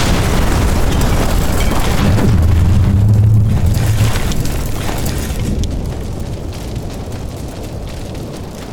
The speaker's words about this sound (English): Now fire our final missile, please. Perfect shot.